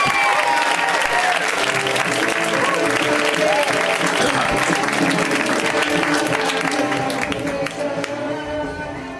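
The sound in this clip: An audience gives a comedian loud, dense applause with crowd noise as he is welcomed to the stage. The clapping holds steady, then begins to thin near the end.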